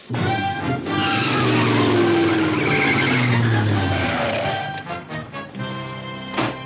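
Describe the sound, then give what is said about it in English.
A truck drives into a hotel lobby, its engine roaring loudly with squealing tires for several seconds, then the noise breaks into a few scattered knocks and rattles as it dies down. “I wonder why that guy parked his truck in the lobby.”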